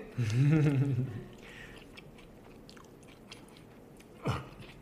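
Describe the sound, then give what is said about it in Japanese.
Soft meat served with sauce is chewed quietly, giving faint, moist mouth sounds after a brief voice, with one short, sharper sound near the end. “これいただきます、はい、柔らかいお肉”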